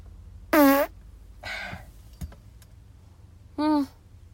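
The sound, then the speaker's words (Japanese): Farts let out by a person working at home while laundry runs, two short buzzing, tonal blasts with a softer breathy noise between them, each about a third of a second long. “おならが出そうなので出します。”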